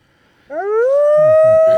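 A dog's howl, a single loud, sustained tonal wail that slides upward at its onset and then holds steady, with faint lower yelps or grunts underneath toward the end.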